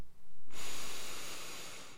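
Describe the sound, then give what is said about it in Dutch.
A single slow exhale through the mouth: a soft, breathy hiss that starts abruptly and then fades gradually, steady and unbroken. “En adem dan weer langzaam uit door je mond.”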